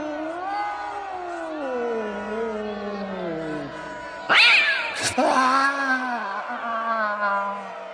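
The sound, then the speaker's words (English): Cat yowling in long, drawn-out, wavering cries that slide up and down in pitch. Midway a couple of sharp noisy bursts cut in, then the moaning caterwaul resumes. “Curse you, feline.”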